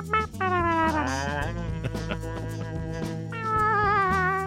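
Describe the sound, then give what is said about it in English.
A cat meows in a few long, wavering, tonal calls, with the first drawn out and sliding, over a steady low hum throughout. “No, that was a cat.”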